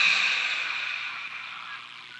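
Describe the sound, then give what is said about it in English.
A deep breath let out during a guided sound-healing exercise: a long, steady, airy whoosh that gradually softens, with no other sounds around it. “Taking a nice deep breath, releasing it.”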